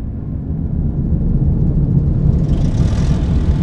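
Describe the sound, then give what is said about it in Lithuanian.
Rotor engines starting up after a button with an orange light is pressed: a low, rumbling whir that swells in loudness, with a brighter hiss building above it toward the end. “Priliesk jį pirštu. vos tai padarai, girdi, kaip ima veikti rotoriniai varikliai.”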